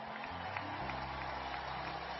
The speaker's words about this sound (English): Now, I want you to give a resounding round of applause to our workforce.